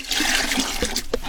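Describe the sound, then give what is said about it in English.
Stream water flowing at Ekandane village near the South Africa–Eswatini border, a steady rushing, splashing wash where women and children gather, with faint voices mixed into the water noise. “The chatter of women and children gathered by a stream at Ekandane village under Jozini local municipality near the South Africa Eswatini border.”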